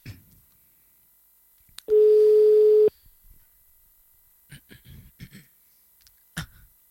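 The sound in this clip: A telephone line tone sounds while calling a number about a remote-control car: a single loud, steady tone lasting about one second, followed by faint clicks and knocks.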